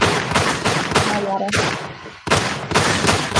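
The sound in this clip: Gunshots ring out as a sound effect, loud sustained volleys of rapid firing broken by a couple of short silent gaps.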